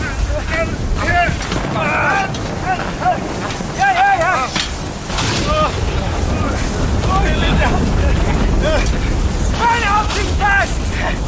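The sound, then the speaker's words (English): Roaring storm with strong wind aboard a sailing ship, a dense, loud continuous rush with gusting swells, intermittent pitched creaks or cries and voices heard through the noise. “We think things cannot get any worse, but within hours, the storm redoubles.”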